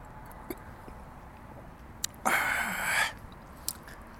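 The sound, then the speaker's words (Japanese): A single sip of wine, heard as a faint airy slurp under a second long, set among soft scattered clicks and low background hiss with no talking. “じゃあまたワインを一口。”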